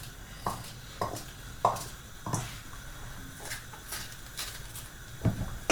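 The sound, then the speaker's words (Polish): A knife cuts small peppers into pieces with several quiet, crisp chops spaced unevenly, separated by a pause and followed by a couple more cuts near the end. “Mamy pozostałe wewnątrz nasiona. I kroimy w takie same kawałki jak poprzedniczki.”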